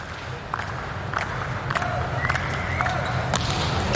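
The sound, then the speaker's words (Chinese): A volleyball serve is struck during a match, a crisp slap among several sharp impacts and high squeaks over a steady crowd murmur. “穆亚诺维奇的发球。”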